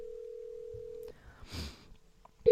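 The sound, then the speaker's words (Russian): A telephone tone sounds as a call is dialled to reach a guest: a steady low beep holds for about a second, a stretch of faint noise follows, and the tone returns right at the end. “мы звоним нашему эксперту, потому что уже времечко”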